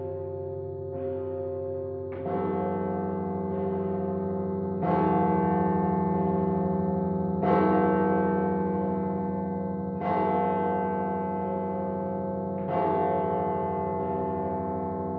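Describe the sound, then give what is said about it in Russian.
Easter church bells ring, with a big bell struck at slow, spaced intervals. Each deep, resonant stroke swells and hangs on, so the tolling blends into a continuous, humming ring. “Тут и Петя уже ясно различает звон большого колокола и даже обрывки трезвона.”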